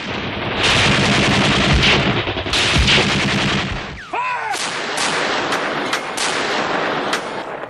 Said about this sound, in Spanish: El trepidar de los cañones había comenzado una semana antes. Más de 1.000 baterías de artillería apoyaban el avance de los infantes.